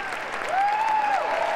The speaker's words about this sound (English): After the music had played, a solid 30 seconds of applause.